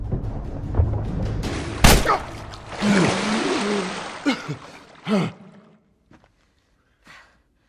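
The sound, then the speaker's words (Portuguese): Gunshots from a video game set in a post-apocalyptic survival story: one loud, sharp blast, then a stretch of rough, noisy rumble with a few dull thuds, fading to near silence at the end. “Eu atirei mesmo no cara, né?”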